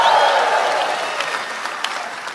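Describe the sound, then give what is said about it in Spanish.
An audience applauding at a church service around Christmas: a dense burst of clapping, loudest at the start, that gradually thins and fades. “Si le vas a aplaudir, hazlo con ganas, échele ganas y échele un grito de júbilo al que se lo merece.”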